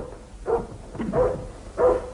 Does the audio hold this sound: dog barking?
yes